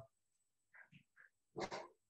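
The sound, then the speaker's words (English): A dog barking excitedly as someone walks past: a few short, high yelps, then two louder, rougher barks in quick succession, with quiet around them. “Wife just walked by and the dog just went a little crazy here.”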